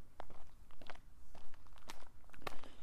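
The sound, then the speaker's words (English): Footsteps walking up a big hill early in the morning, a steady run of many crunchy, gritty steps on a rough surface, fairly loud and continuous with no talk. “We're walking up the big hill.”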